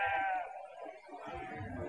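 Sheep bleating in an animated cartoon scene: loud, wavering cries that are strongest at the start, then rougher, noisier bleats through the remainder of the two seconds.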